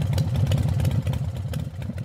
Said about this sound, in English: I'm simply travelling around on my motorcycle and I've come through the Mallee